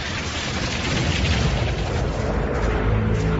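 A dramatized effect of fire and brimstone raining down on Sodom: a dense, loud, continuous roar of booming rumble fills the whole stretch without letup, with no voices.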